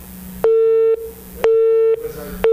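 Telephone busy tone after a call drops: evenly spaced, loud, steady beeps, each about half a second, alternating with equal silences, with the last one cut off.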